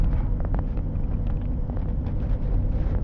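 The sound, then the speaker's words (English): A car drives down a road in northern Michigan on a cold day, giving a steady low rumble of engine and tyres. The drone holds constant throughout, with faint light ticks on top and no voices. “As I'm driving down the road right now”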